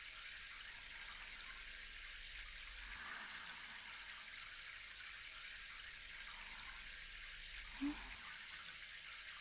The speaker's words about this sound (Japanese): 反対側も濡らして、前髪も濡らしていきますよ。